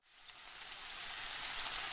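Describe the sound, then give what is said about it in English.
Eggs and bacon sizzle in a frying pan, a bright, even hiss that swells in at the start and then holds steady. “Winky winky, smell those eggs and bacon.”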